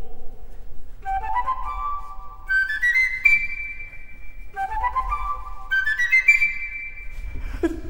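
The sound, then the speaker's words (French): A bird-catcher's panpipe whistle from an opera plays two quick ascending runs of bright, high, clear notes, each run climbing step by step and then holding its top note, over faint background. “C'est le son de Papageno.”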